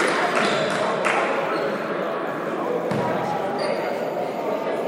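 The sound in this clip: A basketball is dribbled before a free throw in a Clinton Golden Bears versus Carolina Christian game, a few bounces barely standing out from steady crowd noise while a commentator talks.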